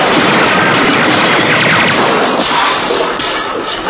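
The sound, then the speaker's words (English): Loud, rapid gunfire in a soldier's shooting game forms a dense, continuous volley of crackling shots with no pauses, tailing off slightly near the end. “That's nice shooting, soldier.”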